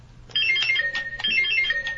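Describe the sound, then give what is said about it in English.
Quiz game buzzer sounding as a bright electronic chime, a short melodic run of high tones played twice in quick succession, heard alone and fairly faint. “Let's do a buzzer check.”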